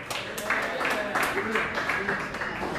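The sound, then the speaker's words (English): Audience clapping for a comedian at a stand-up show, a steady wash of applause with a person talking over it. “All right, all right. Let's clap a little more for Noah Tidwell.”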